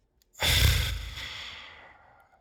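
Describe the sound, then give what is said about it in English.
A man breathes out once, long and heavy, into a microphone. The breath starts abruptly and fades slowly over about two seconds. “The caller breathes into his microphone.”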